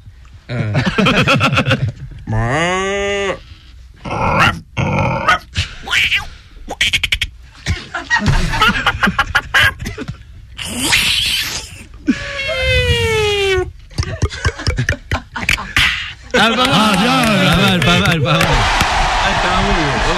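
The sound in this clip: A person's voice imitates a cow, a rooster, a dog, a cat, a drink can and a Formula 1 car in quick succession, a string of moans, yelps, pops and rising and falling whines separated by short pauses.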